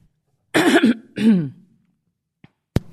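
Throat clearing during a meditation session: two rough, voiced bursts in quick succession, the second sliding down in pitch, followed by a couple of faint clicks in the silence.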